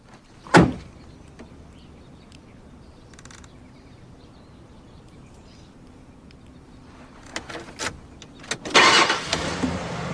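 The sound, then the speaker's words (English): A 4x4's door thuds shut early on, then after a quiet stretch the engine starts and revs up as the vehicle pulls away. “She winds down her window and pulls away.”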